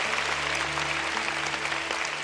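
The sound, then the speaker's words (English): A church audience breaks into steady, dense applause after a testimony. The clapping is continuous and even over a low, constant electrical hum. “Why don't we give Dr. Christopher Yan and the entire family, Daddy, Mommy, a big round of applause.”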